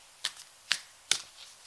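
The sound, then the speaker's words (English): A deck of cards being shuffled: three short, crisp, papery bursts at even intervals, faint and alone. “So I'm going to give the cards a bit of a shuffle”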